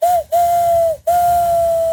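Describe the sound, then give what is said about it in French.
A person imitates a train whistle using fingers and mouth. Three loud, pure whistle blasts at a steady mid-high pitch come in a short, a medium and a long blast, separated by brief breaths. “Ah, c'est le train. Ah, ça fait bien le train aussi.”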